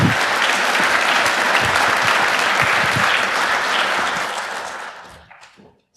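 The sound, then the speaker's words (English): Audience applause at a conference talk: a loud, dense wash of clapping holds steady, then thins and fades out toward the end. “please give them a warm round of applause”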